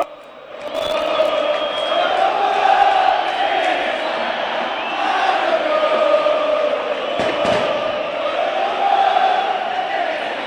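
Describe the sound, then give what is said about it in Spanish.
Football fans singing a chant together in the stands, a loud, steady massed chorus that holds its melody for about ten seconds, with rough crowd noise and a few sharper shouts mixed in. “¿A qué se debe esta canción de los hinchas de Banfield?”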